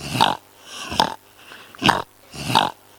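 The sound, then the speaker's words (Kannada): A pig grunts four times in short, snorting bursts at a steady, evenly spaced rhythm, each one loud and rough. “ಹಂದಿ ಹೀಗೆ ಶಬ್ದ ಮಾಡುತ್ತದೆ.”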